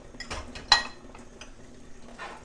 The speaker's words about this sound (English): There's some fun things here, like a beautiful dinging bowl, and that's why I like washing up. I always find all the fun things.